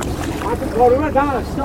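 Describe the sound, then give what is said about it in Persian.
Oars working a rowboat, with a steady rush of water and wind noise while a voice calls out over the strokes. “پارو بزن پارو بزن یک دو یک دو”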